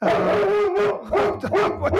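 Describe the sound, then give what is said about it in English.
An excited pet dog barks and yelps indoors in a few loud, tonal, whining bursts, with no talk over them. “That's my dog. Don't mind him.”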